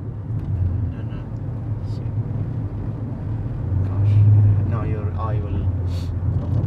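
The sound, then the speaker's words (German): A car drives through a cloud of tear gas with a steady low engine rumble that swells toward the end, as people talk over it. “Wir fahren jetzt mitten durch die Tränengaswolke.”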